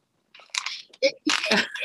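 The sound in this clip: Raspberries being chewed during a live taste test: several soft, wet, crunchy bursts of mouth noise that come in uneven clumps.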